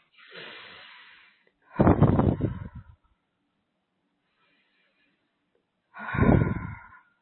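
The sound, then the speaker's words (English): Deep breathing during a guided breathwork session: a soft breath, then two loud, full breaths with an airy rush, separated by a long silent pause. “And we're going to take a couple of breaths.”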